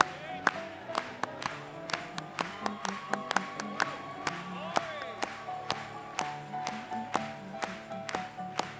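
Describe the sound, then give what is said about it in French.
A church audience claps in a steady rhythm. The sharp, evenly spaced beats continue throughout over sustained tones and voices. “Let's clap it to him again. Continuez à acclamer pour lui.”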